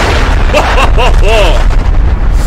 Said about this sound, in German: Artillery.